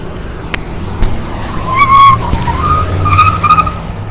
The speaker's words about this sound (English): he made a mad dash for his SUV. Governor, can we talk to you about COVID-19? Really? Governor, you're going to drive away? Really?